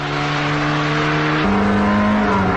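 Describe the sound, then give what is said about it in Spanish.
Exhaust note of a Seat 124 Especial, its most powerful version, during a 0 to 100 acceleration run: a loud, steady, buzzing engine drone with strong harmonics that steps up in pitch once partway through. “¿Os acordáis el sonido característico del tubo escape? Este, el 124 de especial, el más potente. Prueba de aceleración de 0 a 100.”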